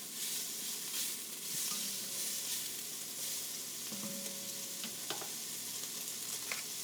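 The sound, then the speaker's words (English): Salt pork browning with onions in a pan gives a steady, loud sizzle and crackle, with a few faint stirring clinks and no talk. “as soon as your salt pork gets a little brown, add those onions, okay? That still needs another minute or so.”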